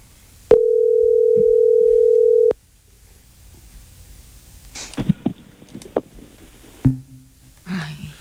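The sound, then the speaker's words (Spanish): A telephone line tone sounds steadily for about two seconds on a call that is answered and hung up. Scattered clicks and handling noises follow, then silence. “Contestó y colgó. Contestó y colgó. Está ocupado.”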